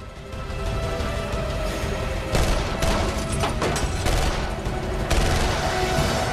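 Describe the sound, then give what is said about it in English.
Gunfire from masked attackers at the rear lights of a retreating SUV: a few sharp cracks and bursts over a dense, continuous roar of noise. “The masked men open fire at the retreating rear lights of the SUV.”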